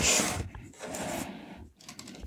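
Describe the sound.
Ten-finger typing on an old, heavy computer keyboard, giving a dense, continuous clatter of keystrokes with a few brief pauses.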